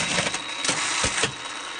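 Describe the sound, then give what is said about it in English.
A sewing machine in a workshop stitches a buttonhole on jeans, making a dense, loud mechanical whir broken by a few sharper clattering bursts. “you had to, like, go in and out and back and forth, and there were levers and spinny things all over the place. And then, boom, you have a buttonhole.”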